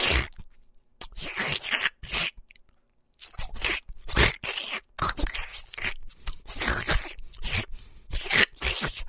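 Loud, crunchy chewing and biting of a smelly steamed manju bun. The chewing comes in rapid, irregular bursts separated by short silent gaps, with no talking.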